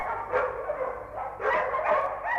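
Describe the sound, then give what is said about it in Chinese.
A dog barks a few times in quick succession, loud and slightly muffled, with short gaps between the barks and no voices. “哦，狗叫了。”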